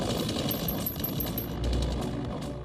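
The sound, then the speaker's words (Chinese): Machine-gun fire in a street battle against defenders holed up in tall buildings, a fast rattling burst of rapid shots over a low rumble, fairly faint. “攻击部队只好使用机枪和步枪，而没有使用大炮和火箭筒”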